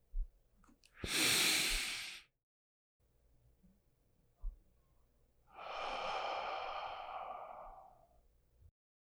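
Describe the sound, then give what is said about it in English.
A deep human breath, a short rushing inhale followed after a pause by a longer, fuller exhale through the mouth, soft and breathy with no talk. “Take a breath into your lungs and exhale.”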